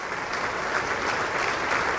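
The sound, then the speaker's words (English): Dense, sustained applause in the House chamber as Republicans and Democrats alike rise, an even wash of many hands clapping with no break for the whole stretch. “Republicans and Democrats alike rose and applauded as Gabrielle Giffords”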